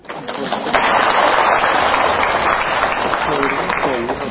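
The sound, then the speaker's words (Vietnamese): Applause from an audience at a Buddhist dharma talk on mindful recitation of the Buddha's name: a dense, steady wash of clapping lasting the whole clip, with a voice briefly audible near the end. “Vỗ tay.”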